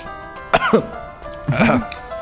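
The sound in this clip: Coughing: two separate throaty, voiced coughs, each short and harsh, with a brief pause between them.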